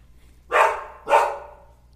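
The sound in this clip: Two loud, sharp dog barks about half a second apart, each trailing off briefly, with no talk.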